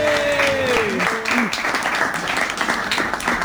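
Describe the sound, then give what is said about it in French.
Applause and cheers from an audience welcome a performer as she starts her segment in a live show. A voice comes first, then a brief, moderately loud patter of clapping. “est-ce qu'on peut faire du bruit pour Flora, s'il vous plaît, qui se lance à l'eau.”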